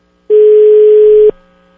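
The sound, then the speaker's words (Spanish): A single steady ringback tone sounds once on an outgoing telephone call that goes unanswered. It is a loud, even beep lasting about a second and ends abruptly, with no voices. “Pues, al parecer Luis está ocupado, ¿eh? Está muy, pero muy ocupado, porque no contesta.”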